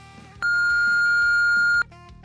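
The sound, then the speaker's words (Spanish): An answering machine beep sounds as a single long, steady high tone lasting about one and a half seconds over a quiet musical background. “deja tu mensaje después de la señal”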